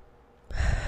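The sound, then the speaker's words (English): A single deep breath: quiet at first, then a sudden, full, airy rush of breath through the second half. “I invite you to take a deep breath right now.”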